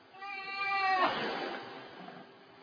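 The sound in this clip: A tired cat with throat problems gives one drawn-out meow that begins tonal and quickly turns hoarse and breathy, trailing into a raspy, strained fade.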